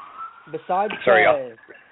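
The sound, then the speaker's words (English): Fire alarms sounding as a steady, high electronic tone that runs through the whole stretch beneath ongoing talk. “excuse the fire alarms”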